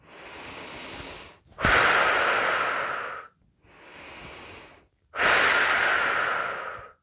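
Slow, deep breathing during a relaxation exercise: four long, airy breaths, with quieter inhalations alternating with louder, hissing exhalations that fade gradually, separated by brief pauses and no talk.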